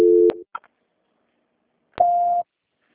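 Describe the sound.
A telephone call transfer tone: two short electronic beeps, the first lower and the second higher in pitch, separated by a brief faint blip and a pause of near silence.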